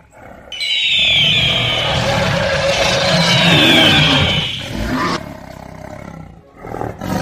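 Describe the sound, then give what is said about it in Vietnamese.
Demon beasts, among them a tiger, roar with joy: a loud, sustained, rasping tiger-like roar holds for several seconds and then drops away to a lower rumble. “Nghe vậy, Ngân Linh Yêu Điệp, U Minh Thử, Hoàng Kim Mãng, Hoa Tinh Man Hổ mừng rỡ mà gào thét.”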